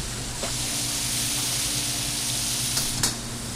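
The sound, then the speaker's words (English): Frog legs fry in oil in a pan, giving a steady, even sizzling hiss that stays at one level throughout, with a few brief soft pops. “Once these get nice and crispy, and what we want to do is we're looking at the pan, and we want the oil that's in the pan to go clear again.”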